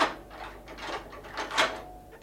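Keys work the lock of a tower prison door, making a run of several rattling, scraping, clunking bursts. The sound is fairly faint and uneven, with a sharper clack near the end.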